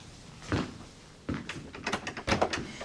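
A wardrobe being opened in a radio drama scene: a couple of sharp knocks and thuds, then a quick run of rattling clacks and clicks.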